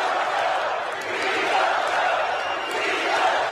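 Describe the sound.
A Democratic National Convention crowd cheers and roars to welcome the keynote speaker, a loud, dense and sustained wall of applause and shouting that swells slightly midway.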